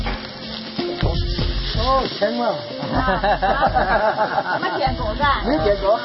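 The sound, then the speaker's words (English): Pre-cooked cold rice stir-fried in very hot oil over a wood fire gives a steady sizzling hiss throughout, partly masked by continuous talking. “key ingredient in this dish is pre-cooked cold rice, ideally a day old, stir-fried in very hot oil. To break up the clumps, give the rice a good stir.”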